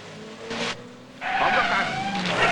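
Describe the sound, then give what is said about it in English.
A brown coupe turns at an ornate roundabout, cutting across a line of oncoming traffic. Its engine roars and its tires screech in a short burst, followed by a longer, louder squeal. “The brown coupe reaches an ornate roundabout and turns right to cross a line of traffic coming the other way.”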